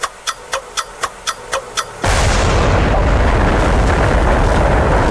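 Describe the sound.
A bursting explosion sound effect in a radio quiz game. A quick run of short, evenly spaced ticks builds up, then a sudden loud, broad roaring blast sustains to the end.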